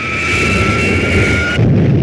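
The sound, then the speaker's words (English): A flying saucer blasts off from the Old West: a loud, dense roaring rush carries a steady high whine, and the whine cuts out shortly before the end while the roar continues. “And so, as the spacemen take off in the saucer, we hear their final goodbye to Earth.”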